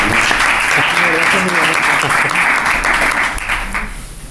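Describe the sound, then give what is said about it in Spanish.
Audience applause at a book presentation, many hands clapping in a loud, dense patter with voices audible over it, tapering off and growing fainter toward the end. “Bueno, pues un aplauso para ella, ¿no?”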